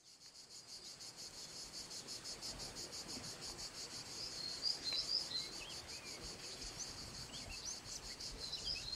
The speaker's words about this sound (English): What you're hearing is the sound of a native forest in southern Europe.